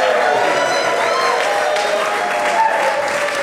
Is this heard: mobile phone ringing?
no